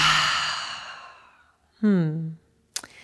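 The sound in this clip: A long, airy exhale releases a held breath during a guided breathing exercise, a broad rushing breath that gradually fades away. A short voiced sigh-like sound and a faint click follow.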